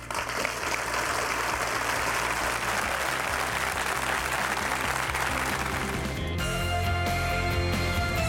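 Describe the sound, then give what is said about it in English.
Audience applause welcomes a speaker at a faith teaching session: dense, steady clapping that runs at an even, full level from start to finish, with no voices standing out. “How about we welcome Christine Kane?”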